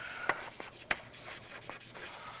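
Drawing on a board during a physics lecture gives a few short, faint scratchy strokes with brief pauses between them, heard with no talking.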